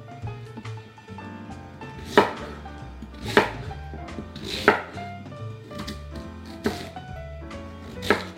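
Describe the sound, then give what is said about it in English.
A knife slices yams on a cutting board: steady, light cuts are punctuated by several louder, sharp knocks of the blade striking the board, spaced about a second or more apart. “So I'm gonna finish slicing up the rest of the yams.”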